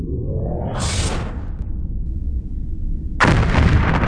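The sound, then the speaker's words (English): Starship phaser fire and hits on the shields in combat with Orion ships: loud, sustained roaring blasts with a hissing high burst early on, then a heavier, louder surge of blaster noise toward the end. “Damage to shields, down 20%. Returning fire. Good thing I had a couple of phasers installed just for this type of emergency.”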